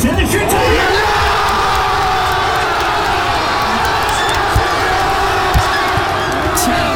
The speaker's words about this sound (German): Wir haben das zwischenzeitliche 2:1 geschossen. Das hat sich beim größten Public Viewing in Niedersachsen in Hannover so angehört.